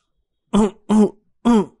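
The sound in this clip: A man coughs hard while driving a car on a highway after smoking: three sharp, throaty bursts separated by short gaps, heard alone without speech.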